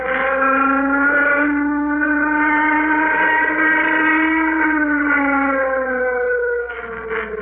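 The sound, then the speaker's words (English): A warning signal siren sounding before an aircraft takeoff: a loud, steady, harmonic-rich wail holding a nearly level pitch with slight gentle swells for about seven seconds, dipping in level near the end, with no voices. “Stand by for flight orders. Sound warning signal. Sound warning signal.”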